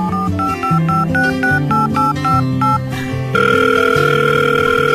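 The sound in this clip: A phone call ringing over background music: a plucked, tinkly melody of quick repeated notes gives way to a loud, steady electronic tone that sounds continuously through the last second and a half.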